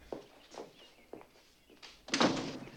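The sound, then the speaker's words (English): A French door opens with a few faint, soft knocks and clicks, then a louder rattling swish near the end. “He opens a French door and they go outside.”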